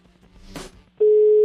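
A telephone call rings while waiting to be answered: after a short burst of noise, a steady, low electronic tone starts abruptly and holds unchanged to the end.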